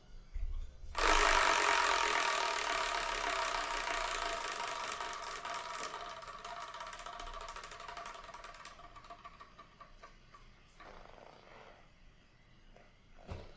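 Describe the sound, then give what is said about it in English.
A Wheel of Fortune style prize wheel spun by hand, a dense whirring clatter that starts abruptly, then slowly thins and fades over several seconds as the wheel slows, with a faint knock near the end. “And what I'm going to do is I'm going to spin that Wheel of Manga. And whatever number it lands on, that's the manga I'm going to talk about in episode 500 besides all the other mangas. So let's spin and see what we're going to review, shall we?”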